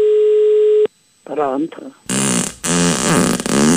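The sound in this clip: Telephone line tones as a listener at home is called: a steady, pure dial tone holds for under a second and cuts off abruptly, then voices talk in bursts over the line.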